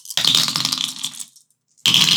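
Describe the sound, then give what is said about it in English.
Dice clatter and rattle as they are rolled. Two loud bursts of bright clicking are separated by a brief moment of silence. “Just to prove that we're not faking anything, we have dice. Yeah. Look, this is the sound of dice.”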